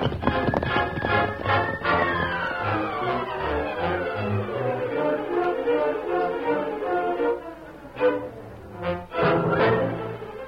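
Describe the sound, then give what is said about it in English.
Hoofbeats of outlaws' horses ridden hard, a running clip-clop woven through dramatic music that plays throughout, with a few sharper hoof strikes standing out near the end. “After riding hard for half an hour, the outlaws led the Lone Ranger and Tonto into a small valley”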